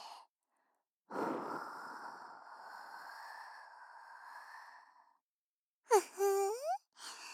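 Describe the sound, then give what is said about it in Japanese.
A deep breath out: one long, steady exhale of airy breathing that lasts about four seconds, followed after a pause by a brief voiced sound. “深呼吸して。吸って、吐くの。吐いて、”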